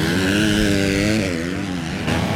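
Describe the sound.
A GasGas motocross motorcycle engine revs at full throttle during a motocross race, a loud continuous drone with wavering harmonics that dip briefly midway before climbing again.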